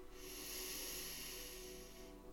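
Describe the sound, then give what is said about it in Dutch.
One long, deep inhalation is taken during a guided breathing exercise. It is a faint, airy hiss that holds steady for about two seconds before cutting off. “Dus adem maar even diep met me mee in.”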